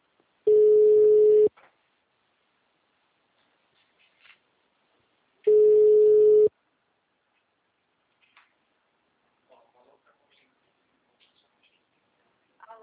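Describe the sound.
A telephone call's ringing tone plays as two steady one-second beeps at a mid pitch, separated by several seconds of silence. Faint scattered clicks fill the gaps, and there is no talk.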